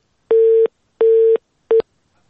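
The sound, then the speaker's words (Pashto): Telephone busy tone following a dropped call: three steady, mid-pitched beeps separated by short silences, the last one cut short. No voices. “فکر کوم د دې اړیکې هم پرېښو چې تخنیکی ستونزه ده”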